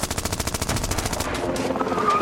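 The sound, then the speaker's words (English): Rapid automatic gunfire rips into a car's door and roof, many shots in a quick rattling burst that gives way to a rough, sustained roar. “Bullets ripped through the door and the roof of the car, somehow missing us.”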